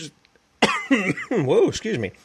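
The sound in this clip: The host coughs and clears the throat in a run of rough, voiced rasps, several short guttural bursts in quick succession.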